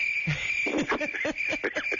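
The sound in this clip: Crickets chirping as a sound effect: a steady, shrill high trill runs throughout, with rapid pulsing chirps and rustly texture layered beneath at a constant moderate level.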